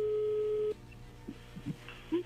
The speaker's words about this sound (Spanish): No haga ruido, ya entra la llamada.